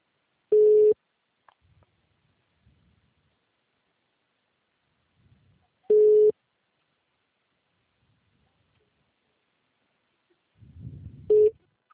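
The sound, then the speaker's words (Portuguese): Busy tone after a dropped phone call: three short beeps of one steady mid-pitched tone, spaced several seconds apart over silence, with a faint low rumble just before the last beep. “Oi, perdão, a ligação caiu. Foi problema mesmo aqui do sistema.”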